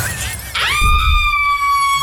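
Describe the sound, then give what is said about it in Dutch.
Something heavy slams onto a jeep with a sudden loud crash and shattering burst about half a second in, followed by a loud, sustained high-pitched ringing tone. “Iets zwaars valt op de auto.”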